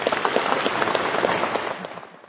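Applause at an awards ceremony for a farm worker: a crowd clapping densely and steadily, then tapering off at the end.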